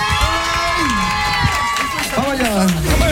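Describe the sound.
A studio audience on a live show cheers, shouts and claps in a loud, continuous roar, with individual voices whooping above the crowd.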